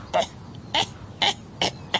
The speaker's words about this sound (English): Pardon me. That cough.